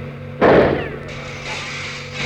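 One sharp rifle shot comes from a BSA .303. An abrupt loud crack bursts out and decays over about a second, and a fainter rumbling tail lingers afterward.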